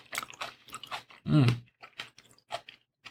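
Chewing of a grape-flavored candy, a soft crunchy and moist sound in several irregular bites, with a short low voiced hum partway through.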